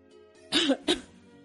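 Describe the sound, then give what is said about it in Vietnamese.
Two short, dry coughs from a person who has been told to rest. They come close together with a brief gap, moderately loud and alone. “Tiểu Hoàng ho khan, dương mắt nhìn Tư Đồ.”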